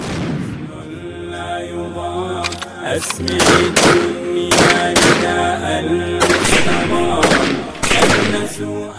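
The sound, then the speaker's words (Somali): Gunfire from soldiers in training shooting at raised targets: many sharp, loud shots in irregular clusters over a dense, rumbling background, growing heavier after the first few seconds. “waxayna tooganayaan ahdaaf meel sare loo dhigay kuwaas oo lagu mithaalayo ciidamada nusayriyada Bashar al-Asad.”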